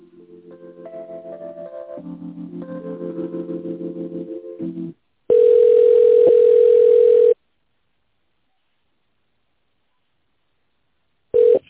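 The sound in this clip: Telephone line tones play while a call is transferred. A short melodic hold tune gives way to a loud, steady tone of about two seconds. After a long silence, a brief tone returns at the end.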